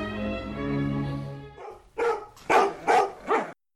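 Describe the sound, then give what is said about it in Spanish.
Dogs bark in four quick, sharp bursts that follow a drawn-out tonal sound. “Los perros de Pavlov.”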